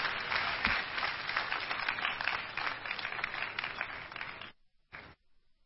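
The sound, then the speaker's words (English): A church audience applauding during a Christmas Day service, dense, steady clapping from many hands lasting several seconds, then fading out abruptly, with one last short burst of claps. “I hand over to Pastor Fumi now. Put your hands together for the Lord.”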